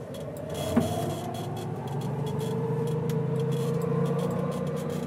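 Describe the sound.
A quiet 48-year-old electric vehicle starts up with a soft click, then drives off with a low, even motor hum and a faint whine that rises slightly as it moves. Light ticking sounds run over the hum.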